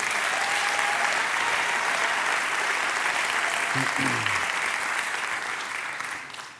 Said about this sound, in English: So welcome to Red Rocks Church. Can we make some noise one last time?